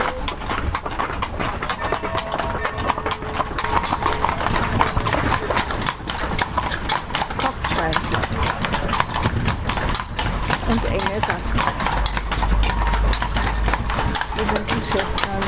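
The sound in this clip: Ponies' hooves clip-clop steadily as they pull a carriage on a town-centre tour, a brisk, continuous rhythm heard beneath people talking.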